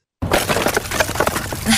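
A stack of split firewood topples over. A sudden dense clatter of wooden knocks and cracks starts abruptly and continues loudly, with no pause, for under two seconds.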